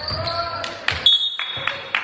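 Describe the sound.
Basketball dribbled on a court during a game, a few dull low bounces mixed with sharp court noise and a high squeak-like tone, with voices present.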